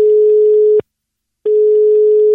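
A telephone signal sounds while a number is dialed: a steady, loud, low tone in two long beeps separated by a brief silence, with nothing else heard.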